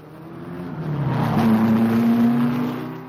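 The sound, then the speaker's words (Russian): Race car engines roar at the start of a race. A low droning rumble swells to a peak in the middle with a sustained engine note holding above it, then eases off toward the end. “Рев моторов заглушил все. Воздух содрогнулся. Земля и небо содрогнулись.”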